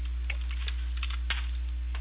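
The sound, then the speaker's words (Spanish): Typing on a phone or keyboard while messaging: a few soft, irregular taps sound faintly over a steady electrical hum. “Ya, yo le voy a escribir ahora mismo a mi WhatsApp personal para que me envíe su ubicación actual.”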